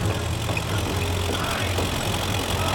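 Steady engine drone of a car driving toward a workshop in a paint factory in Wuppertal, a constant, fairly loud rumble with no change in pitch and no talking.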